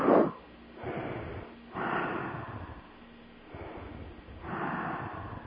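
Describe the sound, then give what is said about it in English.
Slow deep breaths taken during a guided relaxation exercise: a few long, airy rushes of air in and out at an even, unhurried pace. A short snort-like sniff comes at the start, with no talk over the breathing. “So let's take a few deep breaths.”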